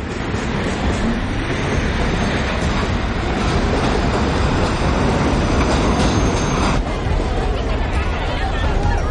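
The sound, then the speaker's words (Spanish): Subway train carriages moving along the tracks, producing a continuous loud rumbling roar with rattling and clattering. Murmuring voices sit underneath, and the tone of the noise shifts near the end. “pasa a otro vagón. El convoy entra en un túnel.”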